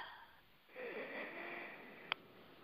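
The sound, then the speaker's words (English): Someone draws a deep breath during a guided breathing exercise, a quiet, airy inhale that begins after a short pause and holds steady, with a small click near the end. “Let's take a quick moment. Deep breath in.”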